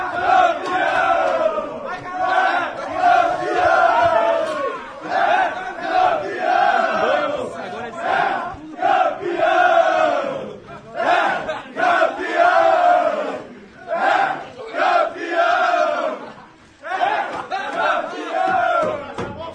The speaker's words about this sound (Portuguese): Esse é o som da sala de imprensa.